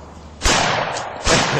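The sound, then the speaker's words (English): Two gunshots from a firearm in a played video, each a loud, sharp crack that opens into a sustained noisy roar, spaced a little under a second apart. “So the guy at the end shoots and his pants falls down.”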